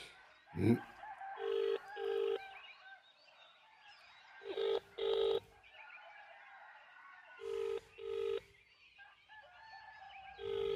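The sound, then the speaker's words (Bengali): Keypad tones of a telephone number being dialed: six short, even beeps in three pairs separated by pauses, preceded by a brief thump. “Ashis Chakraborty phone number কোথায় হ্যাঁ, হ্যাঁ পেয়েছি”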